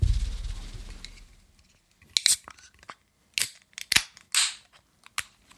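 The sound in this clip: A bottle of strong 10% barley wine beer being opened: after a low rumble fades, a few sharp clicks and crackling snaps follow in short, uneven bursts.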